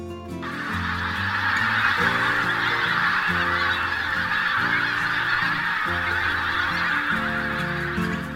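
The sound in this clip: Geese with short pink bills, pink legs and grey-brown plumage, arriving from Iceland to winter in eastern England and Scotland, call in a loud, dense chorus of overlapping honks that holds steady throughout with no talk.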